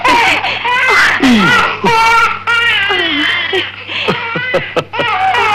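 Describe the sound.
A newborn baby girl cries in long, loud, wavering wails that run almost without pause, with adult voices at times alongside.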